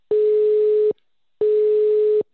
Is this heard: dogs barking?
no